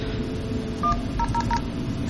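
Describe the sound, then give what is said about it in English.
Telephone touch-tone dialing beeps sound while a call is placed to an Asterisk phone server. A few short, clear tones follow each other quickly over a steady line hiss. “I'm just going to dial into the Asterisk server and let it play the voice prompts for that side of the connection.”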